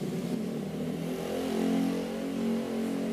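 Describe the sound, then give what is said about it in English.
The small engine of a motorized bicycle drones faintly outside as the rider goes past. The buzzing hum swells for a moment midway and then eases back. “a dude just rode by out there on a motored bicycle or whatever that was”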